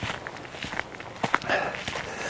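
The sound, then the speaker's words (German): Footsteps walking on a raised path through a moor, a steady, moderately loud stride with uneven crunching steps and no talk. “Ich lauf hier auf so einem erhöhten Pfad, der durch das Moor geht”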